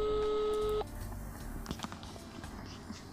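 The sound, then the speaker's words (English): An incoming telephone call rings: a single steady electronic ring tone sounds for under a second, then cuts off into faint, low rustling noise. “We have a caller online. Yeah, we are receiving a call right now, so”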